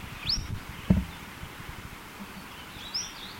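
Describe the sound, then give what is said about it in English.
A bird singing two brief, high whistled notes nearly three seconds apart. They sound faint over a quiet background, with a single low thump between them. “those notes are by this bird”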